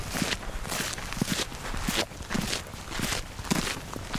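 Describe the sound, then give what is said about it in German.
Footsteps of a small group of women on a morning foot patrol against poachers before sunrise, near a South African national park: many steady, rhythmic steps crunch along at a brisk walking pace, evenly loud throughout. “Sie haben einen ordentlichen Fußmarsch zu bewältigen.”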